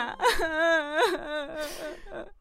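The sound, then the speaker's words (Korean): Someone whimpering and crying, with drawn-out, wavering high-pitched wails broken by short catches of breath, several cries in a row. “야, 왜 네가 울어?”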